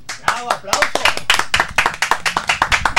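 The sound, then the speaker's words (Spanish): Audience applause after a song by a music quintet, with many overlapping claps forming a loud, dense patter and voices mixed in. “Aplausos.”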